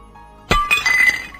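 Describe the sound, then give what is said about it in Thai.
A plate breaks while dishes are being washed: one sharp, loud crash of shattering crockery, followed by a brief scatter of clinking, rattling shards. “ทำจานแตกอีกแล้วเหรอลูกล้างก็ระวังหน่อยนะลูก”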